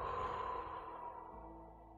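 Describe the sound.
A deep breath released slowly during a guided breathing exercise: one long, soft, airy exhale that fades gradually over about two seconds, heard alone.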